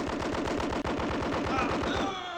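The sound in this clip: Machine-gun fire follows an order to shoot in a radio drama. A dense, rapid stream of shots runs at an even, steady rhythm and eases off right at the end.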